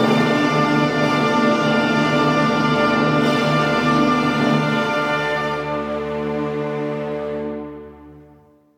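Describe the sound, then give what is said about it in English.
Orchestra sounding the big opening D minor chord of an opera overture: a loud, full sustained chord with deep bass, held for several seconds with low notes shifting beneath, before the upper parts thin out and the sound fades away. “That's the sound of that opera beginning. It's just a big, giant, whop you over the head D minor chord.”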